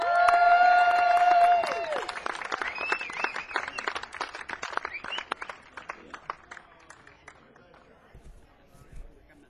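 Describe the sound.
An audience applauds and cheers to welcome the band Driftwood at a North Carolina show, dense clapping swelling right after a sustained musical chord, then thinning out and fading over several seconds.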